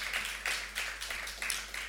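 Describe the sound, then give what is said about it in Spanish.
An audience at a live music performance claps along: faint, rhythmic claps in a steady, even beat that carries on throughout. “A ver, aplaudiendo.”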